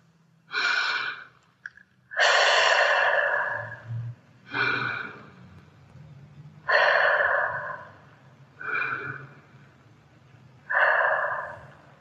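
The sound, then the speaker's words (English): Slow, deep breaths drawn in and let out form six long, airy rushes in a steady, unhurried rhythm, fairly loud with quiet pauses between them and no talking. “T, take 3 deeper breaths.”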